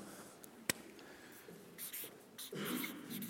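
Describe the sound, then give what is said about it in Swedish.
A pen writes in large letters on a paper notepad with soft, scratchy strokes in short irregular bursts. The writing is quiet overall, with one sharp tap early on. “Ser ni när jag skriver den här storleken? Vilken tur, för jag har inget större block nämligen.”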